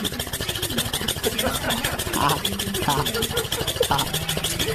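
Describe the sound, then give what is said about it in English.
A bulldog breathes heavily in a loud, continuous snorting rumble of rapid, evenly pulsing rasps that chugs like an idling diesel engine and stays steady throughout. “Here is the sound of a bulldog breathing heavily and sounding like a diesel engine.”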